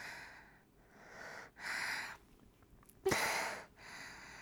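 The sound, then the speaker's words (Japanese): Deep breathing, faint and breathy: a few slow inhales and exhales in a loose rhythm, with a sharper, louder breath near the end and no talk. “ちょっと深呼吸。”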